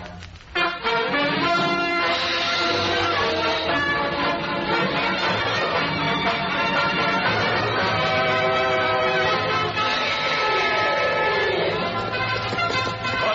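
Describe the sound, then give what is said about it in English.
Freight train noise: a loud, steady rumble carrying long, sustained whistle-like tones that hold throughout. “They've held up the Millersville freight, and we've got to get on their trail.”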